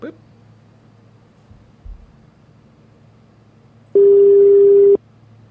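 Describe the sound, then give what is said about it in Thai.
A single steady telephone call tone sounds while a call is being dialled: one loud, flat, even beep lasting about a second over a low, quiet background hum. “เดี๋ยวโทรหาคุณทรายเลยแล้วกันนะครับครับผมผมเเชื่อมเข้าไปแล้วนะครับ”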